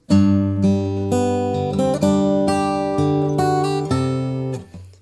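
Fingerstyle guitar plays a Christmas tune as written, with plucked melody notes over sustained low bass notes at a steady, moderate pace. The final note rings out and fades, and no voices are heard.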